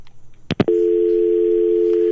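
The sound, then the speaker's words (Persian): A telephone tone sounds after a call is cut off. Two sharp clicks come first, then a loud, steady, unbroken tone holds to the end, with no voices. “متاسفانه تماس با آقای مارج قطع شد”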